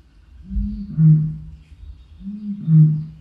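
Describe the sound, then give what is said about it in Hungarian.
Eurasian bittern booming call: two deep, hollow, low-pitched booms, each opening with a soft lead-in that swells into a louder resonant hoot. No other sounds or voices are present. “Ez a bölögbika.”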